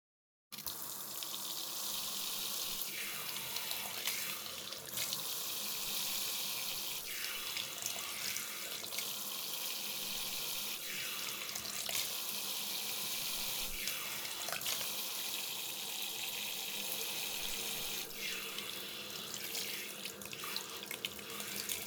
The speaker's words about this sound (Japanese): では、まずは髪を流しますね。